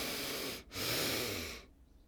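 Two sharp inhalations through the nose during a guided yoga breathing exercise. A short sniff is followed by a longer, sustained breath in, and silence follows.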